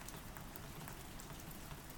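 Steady rain falling, a dense, even hiss with fine patter of drops throughout and no voices.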